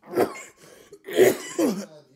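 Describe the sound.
Throat clearing from a person with mucus in the throat while sick with Omicron: three rough, throaty bursts with short pauses between them, the second and third close together.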